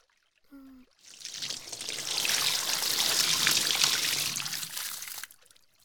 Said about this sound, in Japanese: もう一回くらい流しておきましょう。